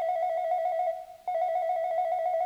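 A newly installed landline telephone in a village home rings at midnight with a loud, steady warbling electronic tone that pauses briefly midway and then resumes, with no voices.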